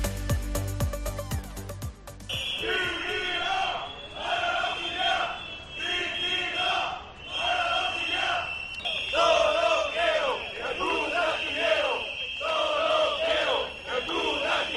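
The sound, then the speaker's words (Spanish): About 3,000 workers from Navantia's auxiliary shipyard firms chant protest slogans in the city of Murcia, loud and rhythmic in repeated surges. A steady, shrill high tone runs beneath them, and a brief musical jingle opens the sound. “Lo que están escuchando son las consignas de los cerca de 3.000 trabajadores de las empresas auxiliares de Navantia que se podían escuchar hoy en la ciudad de Murcia.”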